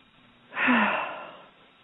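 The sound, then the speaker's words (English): A single deep breath, a soft breathy rush that swells quickly and then fades slowly, fairly quiet and with no talk over it. “Okay, so close your eyes. Everybody take a deep breath.”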